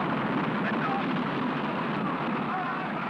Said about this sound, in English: It is from the 1950s, 60 years ago, 1958. That was the actual sound of the historic mission Explorer 1 launched